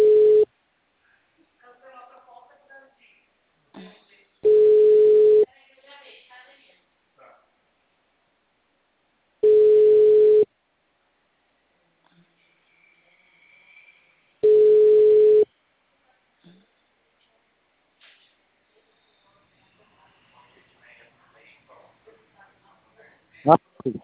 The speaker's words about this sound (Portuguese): Seu Francisco, eu tô ligando naquele número que o senhor me passou.